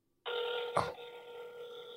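Ringback tone of an outgoing telephone call: one continuous buzzing tone starts abruptly and holds steady for almost two seconds, with a brief click partway through.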